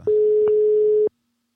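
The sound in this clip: One steady telephone tone on an outgoing call: a single flat, mid-pitched beep lasting about a second, loud and clean, then cut off into silence.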